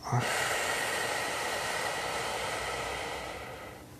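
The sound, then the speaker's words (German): A deep breath is drawn in and let out during a guided meditation: a soft, steady, airy rush sustained for about four seconds that slowly fades, with no talk. “Wir nehmen gemeinsam einen tiefen Atemzug und atmen ein und wieder aus.”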